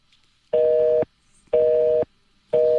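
A telephone busy signal sounds on an unanswered call as three steady, mid-pitched tone bursts. Each lasts about half a second and they are evenly spaced by equal silent gaps, with the last one cut off.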